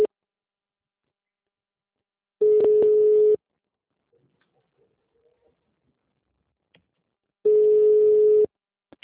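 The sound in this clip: Telephone line tones play while a call is put through to a company's HR department: two long, steady mid-pitched tone bursts, each lasting about a second, separated by several seconds of near silence with faint small noises.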